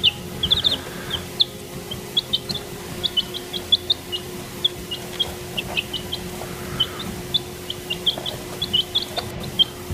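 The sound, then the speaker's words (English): Five newly hatched baby chicks peep. There are many short, high-pitched chirps in irregular bursts throughout, over a faint steady hum, with no voices. “That, my friends, are my family's five new baby chicks.”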